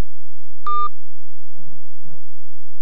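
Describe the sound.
A telephone line gives one short, bright beep as a call disconnects. The tone lasts a fraction of a second and is followed by a couple of faint, brief murmurs.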